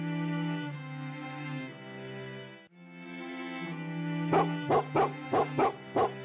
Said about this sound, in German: Nicht nur, weil sie während der nächsten Stunden immer wieder den einen oder anderen Husky hören werden